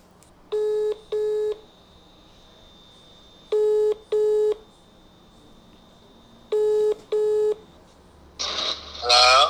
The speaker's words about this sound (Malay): saya akan call kawan saya seorang lagi lah uh, tunggu sekejap